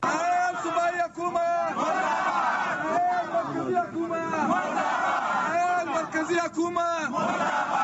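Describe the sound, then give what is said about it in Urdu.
Lawyers at a sit-in outside the Balochistan Assembly chant slogans. Many voices shout together in loud, rhythmic, repeated bursts of group chanting. “اس سلسلے میں وکلا نے آج Balochistan assembly کے سامنے دھرنا دیا. اس موقع پر انہوں نے یہ نعرے لگائے.”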